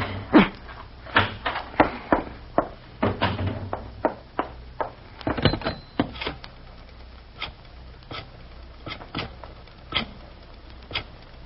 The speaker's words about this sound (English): Key. Where's my key? This darn lock. This darn lock.